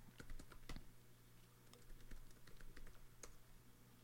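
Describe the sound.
Soft tapping of someone typing a text message on a phone, many quick faint taps in an uneven stream over a steady low hum.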